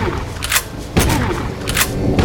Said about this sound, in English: Shooting with the shotgun.